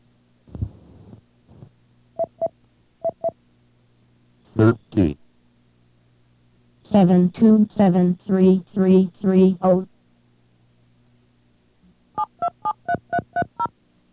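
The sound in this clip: Touch-tone DTMF beeps enter star 30 on a controller to autodial a stored location. Short, clipped tones come in quick clusters between stretches of talk.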